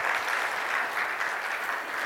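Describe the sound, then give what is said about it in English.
Audience applause at a conference: a steady, even patter of many hands clapping at a moderate level, continuous from start to end with no voices. “Let's give those guys a nice big round of applause.”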